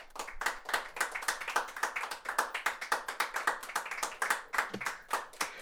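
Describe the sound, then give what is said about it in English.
Steady hand clapping, many claps in an even rhythm, fairly quiet and with no talk over it. “So the fact that they got to the finals, clap to them.”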